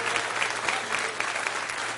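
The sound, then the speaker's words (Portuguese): Applause from a church audience clapping for Jesus, a dense, steady wash of hand claps with faint regular accents running through the whole moment, over a low background hum. “Palmas para Jesus.”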